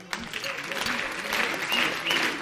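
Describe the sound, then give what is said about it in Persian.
An audience claps along in the speaker's style, a brisk wash of hands growing somewhat louder toward the end, with a few voices calling out over it. “به سبک من دست بزنید”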